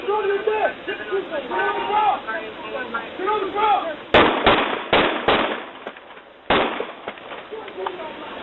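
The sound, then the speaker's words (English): Police gunfire recorded on a dash cam in Miami Gardens: after voices, a few sharp shots crack in quick succession, then one more shot follows after a short pause. “The other sound is from police dash cams in Miami Gardens, where police officers ordered a mentally ill black man to get on the ground before white officers opened fire in February and killed 25-year-old Laval Hall.”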